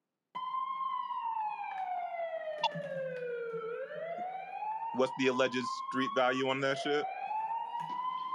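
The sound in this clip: Police car siren wailing, its tone sliding slowly down and then climbing back up, held steady and fairly loud throughout while a man speaks briefly over it midway.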